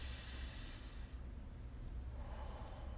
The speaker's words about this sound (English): And now we're going to breathe. And the deeper we breathe,